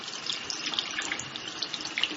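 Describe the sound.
Water runs from a tap at about 37 degrees, set for hand washing: a steady, bright splashing hiss that stays even throughout, with no talk.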